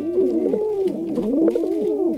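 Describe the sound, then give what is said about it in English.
Pigeon cooing: soft, low, throaty coos repeated in a steady rolling rhythm, each swelling and fading, heard alone with no talk. “Pigeons have an unmistakable strut when they're walking around.”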